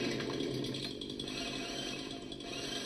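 A motorized power trimmer cuts through an overgrown bush, a loud continuous buzzing whine that holds steady with slight wavering and no talk.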